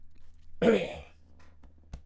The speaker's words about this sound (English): you had a little cough right there